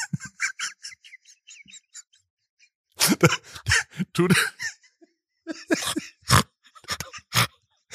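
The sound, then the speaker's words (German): A person grunting: a few rough, throaty vocal bursts mixed with breathy, laugh-like sounds, preceded by a stretch of soft, choppy higher-pitched vocal noises. “Gegrunzt hast du auch schon lange nicht mehr in der Aufnahme.”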